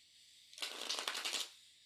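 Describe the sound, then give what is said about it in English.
A deck of playing cards is shuffled in one quick riffle, a dense burst of crisp, papery flutter lasting about a second between stretches of near silence. “We're all going to connect to the cards by listening in to the sound of them being shuffled.”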